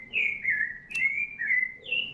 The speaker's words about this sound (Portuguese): Aqui o Sabiá Laranjeiro está cantando lindamente.